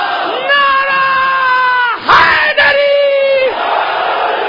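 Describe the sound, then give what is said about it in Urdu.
A leader's long, drawn-out call of the religious slogans Nara-e-Takbeer and Nara-e-Risalat is answered by a loud, short crowd shout. The exchange happens twice in a call-and-response pattern. “تین نعرے میں لگاؤں گا، جواب آپ دیں گے، نعرہ تکبیر، نعرہ رسالت”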